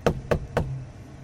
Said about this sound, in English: He says, behold, I stand at the door and knock.